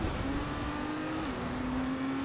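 Race car engine from the video game Trackmania, heard as a faint, steady tonal drone with a slight dip in pitch partway through. There is no speech over it.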